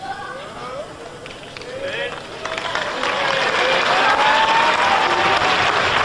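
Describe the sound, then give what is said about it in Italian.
Audience applause and shouting at a song contest stage. The clapping and cries start moderate, then swell midway into a loud, sustained roar. “qui io ero in scena, durante tutto questo applauso e queste urla”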